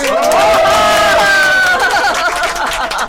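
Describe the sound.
Audience cheering and clapping at a live quiz-style event, loud raised voices with sustained shouted tones over a bed of clapping and chatter, easing slightly toward the end.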